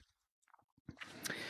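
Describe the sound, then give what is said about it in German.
Book pages are flipped by hand. A few faint soft clicks are followed by a brief, louder papery rustle of turning pages. “jetzt muss ich mal wieder blättern hier”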